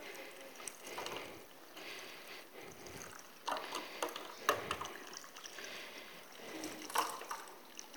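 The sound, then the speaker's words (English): Water is poured in during a demonstration, coming as soft, intermittent splashing bursts that are faint overall, with a few brighter spatters. “And so, hopefully, if I add some more water, they might run away again, but we'll see.”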